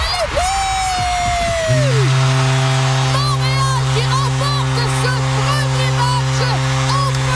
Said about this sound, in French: Vous venez d'entendre le but victorieux de la victoire de Montréal qui l'emportait 3-2 en prolongation contre la Charge d'Ottawa jeudi en finale des séries de la Ligue professionnelle de hockey féminin.